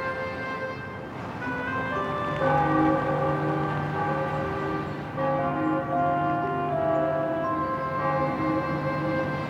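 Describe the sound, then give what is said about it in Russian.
Church bells ring over a city, with several metallic strikes whose long overtones overlap and swell at a moderate level. No voices are heard. “на заднем фоне город. Колокола.”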